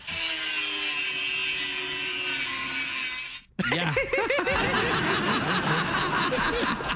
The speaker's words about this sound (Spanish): Sí, aquí tenemos el audio de Shakira cortando el árbol.